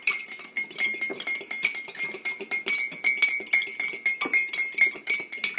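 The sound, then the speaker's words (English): Lemonade being served into a glass produces a steady run of many bright, rapid clinks and glassy rattles, bunched in quick irregular bursts without a pause. “Our mystery sound was us serving lemonade in a glass.”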